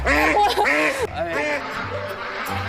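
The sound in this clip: A plump, heavy duck quacks as it is picked up, giving a few loud, raspy, nasal quacks close together. Quieter rustling and handling noise follow.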